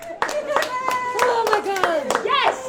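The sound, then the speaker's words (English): Starbucks coffee shop workers in Superior cheer and clap in their store lobby as union election results come in on a laptop. Bright, excited voices whoop over brisk handclaps. “Workers cheered inside their store's lobby as they watched election results roll in on a laptop.”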